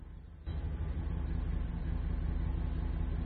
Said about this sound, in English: He drives around a corner, but stops.